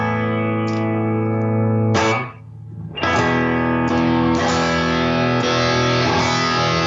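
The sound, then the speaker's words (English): A distorted electric guitar plays through an amp in the room, miked and recorded through a Yamaha AG06 interface. A loud chord rings out with rich sustain, drops out briefly midway, then returns as several further ringing chords. “So I've got my microphone set up here. This is all going through a Yamaha AGO6 interface. So this is just the amp in the room sound.”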